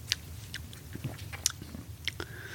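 Chewing and biting while tasting food: a few soft, crisp crunches and moist chewing noises spread across a short, quiet stretch, with no talking.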